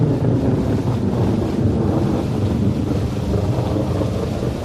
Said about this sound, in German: Und während die kleine Ameise so sang, begann es fürchterlich zu regnen.